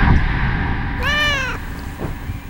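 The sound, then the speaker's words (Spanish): A house cat that has climbed up somewhere high gives a single clear, tonal meow lasting about half a second. It stands out over a steady background of noise. “Gato, ¿qué haces aquí arriba?”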